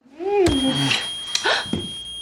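An alarm goes off after someone is backed against a wall into it: a steady, high-pitched electronic tone held throughout, with short vocal sounds and a few sharp knocks over it.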